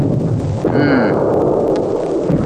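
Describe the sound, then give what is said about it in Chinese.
Artillery shells explode in a dramatized battle scene of an intense bombardment, heard as a continuous heavy low rumble of booms that stays loud and thick throughout, with no single blast standing apart. “哇，这么多炮弹呢，像下饺子一样。”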